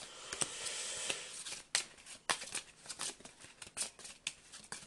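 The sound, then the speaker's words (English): A card is slipped into the burden deck of a board game, heard as a quiet run of crisp papery clicks and slides, with many sharp ticks spaced irregularly and no talk. “I'm going to use the action to do Old Road again to get rid of it. So put another card from the burden deck in.”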